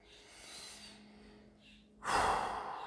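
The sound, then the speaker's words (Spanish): A deep inhalation during a guided breathing exercise: after a quiet stretch, one long, loud breath of air is drawn in and holds steady to the end. “Inhala bien profundo.”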